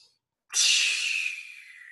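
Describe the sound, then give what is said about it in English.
A voice imitates a whale spouting water through its blowhole with a single sudden, hissing blast of breath that trails off over about a second and a half. “you can also do a whale water because you know how they shoot the water up out of their spout. So you inhale and you turn your head up and you shoot your water up.”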